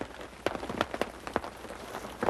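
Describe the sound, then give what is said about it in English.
Light rain falling at night, heard as several distinct, crisp drops tapping at uneven intervals over a faint steady patter. The whole sound stays quiet. “Well, I'm not gonna let a little rain stop me.”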